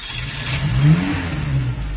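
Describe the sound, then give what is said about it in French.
A car engine revving as the car drives off: a steady low rumble that swells briefly in the middle, then holds, with no voices. “Je rentre, je prends la bagnole et je m'en vais.”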